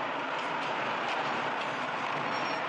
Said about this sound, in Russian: В заставе подъезжает тот же тепловоз с прицепной платформой. Сбавляет ход.